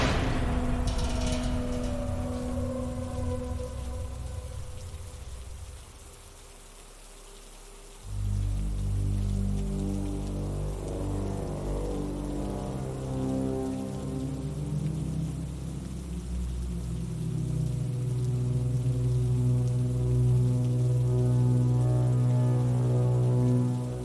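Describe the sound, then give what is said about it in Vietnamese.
Rain falling as school lets out: a steady, continuous hiss with low sustained tones underneath, dipping briefly about a third of the way through before resuming as strong as before. “Tan học rồi mà chờ mãi mới hết mưa.”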